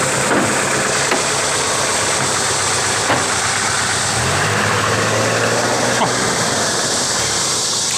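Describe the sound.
A car engine running with a loud, continuous rumbling drone, joined partway through by a deeper steady hum that holds for a couple of seconds before fading back into the engine noise.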